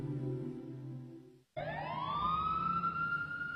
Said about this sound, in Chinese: 一阵警车的警笛声响起，由远至近，转瞬间已近在咫尺。